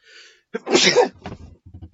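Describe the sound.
A person sneezes once after trying to hold it in: a quick intake of breath, then a loud, sharp, explosive burst of air that quickly fades.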